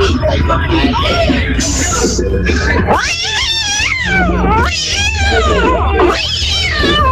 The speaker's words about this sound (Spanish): Me va a reventar los tímpanos acá del oído ya. Le ha gastado la pata ese gato, Dios mío.